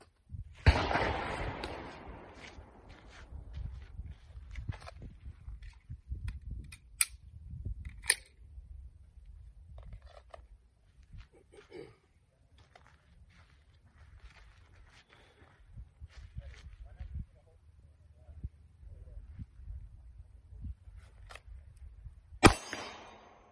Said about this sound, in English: and then you got your tactical or administrative reload. I'm gonna give the demonstration